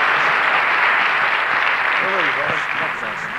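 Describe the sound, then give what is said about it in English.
A church audience applauds to welcome a guest speaker, with thick, continuous clapping from many hands that eases slightly near the end as a voice begins talking over it. “Give him a hand of welcome.”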